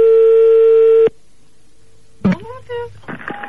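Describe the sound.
A telephone rings with one steady, buzzing electronic tone that lasts about a second and stops abruptly. A short silence follows, then a voice speaks as the call is answered.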